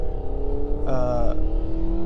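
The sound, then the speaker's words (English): A loud car engine drones steadily throughout, broken by one short, sharp revving surge early on before it settles back into the low hum; no one speaks. “I hate loud cars. Unnecessarily loud cars.”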